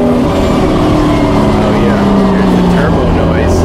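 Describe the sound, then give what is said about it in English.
RSR and 935 race cars accelerating out of a hairpin: a loud, continuous engine roar with layered droning tones that fills the whole clip without a break. “There's a bunch of RSRs and a bunch of 935s in this race. Turn it up, Matt. This is my favorite. I love this sound.”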